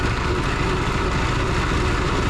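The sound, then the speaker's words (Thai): Steady machine rumble comes from a rotating drum with a pipe inside, spinning to shake small fish out of fishing nets; a dense, continuous low roar with broad noise, unchanging throughout, with no voices. “ตัวเครื่องเนี่ยมันจะหมุนนะครับโดยข้างในมันจะเป็นท่อนะครับแล้วมันก็จะตามแรงของเครื่องนะครับเพื่อจะสะบัดให้ปลาออกจากตัวอวนนี้ไปนะครับ”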